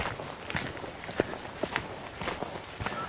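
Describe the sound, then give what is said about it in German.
Footsteps walking along the embankment path of a moor: a faint, irregular series of soft steps over a quiet outdoor background. “So, ich laufe hier auf dem Damm des Moores entlang.”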